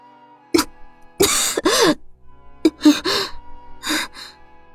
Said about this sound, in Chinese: 苏黎咳了几口血。